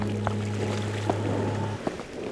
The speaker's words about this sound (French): Mais pourquoi on entend de l'eau ? Ça vient du musée.